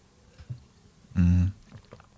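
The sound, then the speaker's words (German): A quick sip of a drink: one brief, low gulping swallow in a pause, set against faint background sounds. “Kurz Schluck trinken.”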